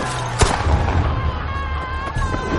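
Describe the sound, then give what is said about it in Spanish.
Police gunshots fired at stone-throwing rioters: two sharp bangs, roughly two seconds apart, over a dense, noisy background. “La policía dispara y les lanzan piedras.”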